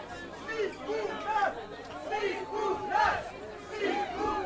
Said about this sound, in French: Le public scande un nom bizarre que vous entendez de toute façon avec le micro d'ambiance.